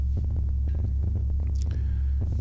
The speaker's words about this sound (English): That is a bunch of sine wave collision. Low frequency sine wave collision.